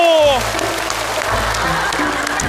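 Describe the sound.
Audience applause, a sustained dense patter of clapping that stays fairly loud and even for the whole stretch, with a low steady tone running underneath.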